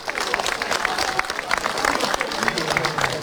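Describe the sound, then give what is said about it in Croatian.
Audience applause for the Pazin folk dance group's performance: dense, sustained clapping from a crowd, steady throughout, with a voice faintly present beneath it. “Pa vas molimo još jedan veliki pljesak za folklor Pazin i njihov nastup.”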